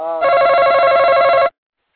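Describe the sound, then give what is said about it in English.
Telephone ring announcing an incoming call: one sustained, buzzy electronic ring lasting about a second and a half, loud and alone, ending abruptly. “That means we've got a caller. We've got a caller coming in.”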